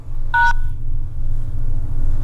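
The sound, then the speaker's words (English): A single short two-tone telephone keypad beep as the pound key is pressed while recording a voicemail greeting, heard over a steady low hum that continues throughout. “Please record your busy greeting and press pound.”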